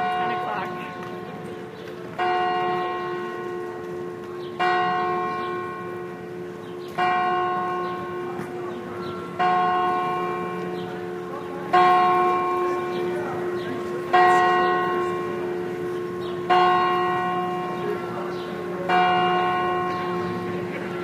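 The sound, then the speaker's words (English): Clock tower bells in Baden, Switzerland ring in a slow, even series of resonant strikes about two seconds apart, each stroke swelling into a long shimmering tone that fades before the next. “That right there is the sound of my Swiss experience. I will say that. The Swiss are known for their punctuality, for being very aware of time. So the clock tower dings every 15 minutes,”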